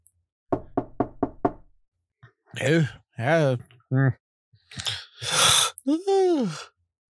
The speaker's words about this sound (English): But early in the morning, about 5 o'clock, you all get knocks on your door.